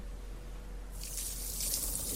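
Rushing water from a video-game washing machine washing a chef's hat, starting about halfway through over a low steady hum and continuing as a constant hiss that grows slightly louder.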